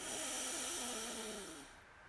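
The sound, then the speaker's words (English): A long, deep breath in, taken during a guided breathing exercise. It is a steady, airy rush of moderate loudness that lasts under two seconds, then fades away, with no talk over it. “So now let's take a deep breath in. We'll breathe in and we'll hold slightly”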